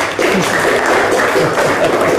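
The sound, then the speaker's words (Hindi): Applause for a correct answer at a quiz competition: many hands break into clapping abruptly after a brief pause and keep up a steady, loud patter to the end. “तालियां।”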